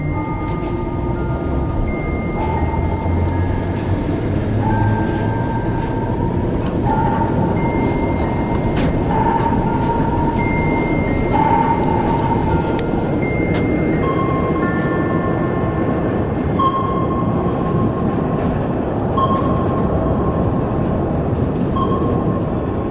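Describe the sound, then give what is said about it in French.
Metro train at an underground line 11 platform, a loud, continuous rumble lasting the whole clip with high, drawn-out whining and squealing tones rising and fading over it, and no voices. “plusieurs mètres sous terre, sur le quai de la ligne 11 du métro”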